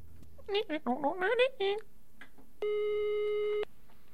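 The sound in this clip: A telephone ringback tone sounds while a hotline is being called: a single steady, buzzy tone lasting about one second, after a short burst of voiced sound.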